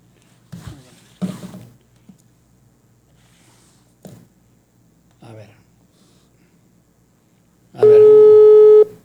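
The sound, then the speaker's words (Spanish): Telephone tone from a call being dialed, sounding as one steady, buzzy tone about a second long near the end, after a few short, scattered sounds. “A ver, es que, a ver, aquí le estoy marcando al Capi.”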